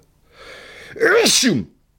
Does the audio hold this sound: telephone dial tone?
no